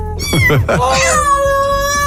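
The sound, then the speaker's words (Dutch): A cat meows once, a loud, clear, drawn-out call with a slightly falling pitch near the end. “Ah, en die herkende ik ook aan de miauw.”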